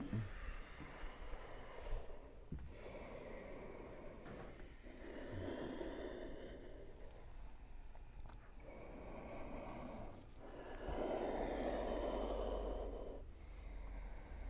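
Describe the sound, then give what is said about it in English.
Deep yoga breathing, with many slow, loud breaths drawn in and pushed out in alternation, each a long rough rush of air separated by short pauses. “Now pull the air in and push it out a little bit.”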